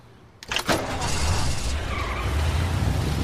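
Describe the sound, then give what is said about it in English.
A car engine starts with a quick crank and catches, then the tires screech away as the engine roars loudly and steadily. “starts the engine and screeches away”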